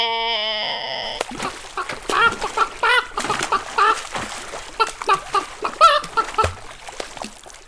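Chicken clucking stands in for a van's horn sound: a short steady electronic tone, then a rapid series of many loud, squawky clucks.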